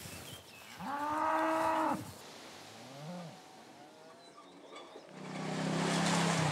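Cattle moo on a pasture in early summer: a long, loud, low moo, then a shorter, weaker one, and a deep drawn-out call near the end, with steady outdoor background noise and no talking.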